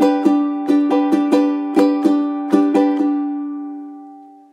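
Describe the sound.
A G major chord strummed on a ukulele, about ten bright strums in an uneven rhythmic pattern, with the final ring left to fade slowly before one last strum at the very end.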